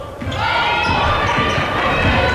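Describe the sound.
A basketball dribbled during a college women's game between Colorado Mesa and Adams State, steady bouncing beneath crowd noise and a commentator talking.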